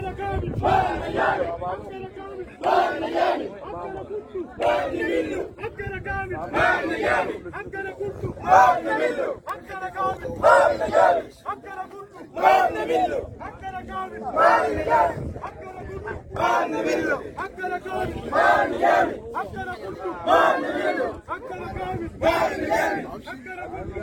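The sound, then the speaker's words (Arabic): Protesters chant slogans demanding rehabilitation of the road linking the national highway to Abkashma village in central Gedaref. The crowd's loud, rhythmic chants repeat in steady pulses without a break. “وردد المحتجون هتافات تطالب بالإسراع في تأهيل الطريق الذي يربط بين الطريق القومي وقرية أبكشما بمحلية وسط القضارف”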